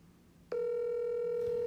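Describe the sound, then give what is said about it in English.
A phone call rings out on speakerphone as a steady, unbroken electronic tone that starts after a brief quiet moment and holds at an even level to the end. “I'm gonna call him. Put him on speakerphone, and”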